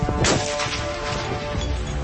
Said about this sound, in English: The 338 Lapua was my most recent purchase. This is the first chance that I got to shoot it. Send it.